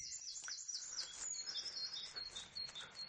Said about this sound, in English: There's classic great tit. Teacher, teacher, teacher.